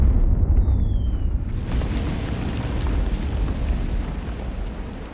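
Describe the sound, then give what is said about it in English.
Heavy artillery bombardment of a city, a continuous deep rumble of explosions that stays loud and fairly steady throughout with no voices. “German artillery bombard the city morning to night.”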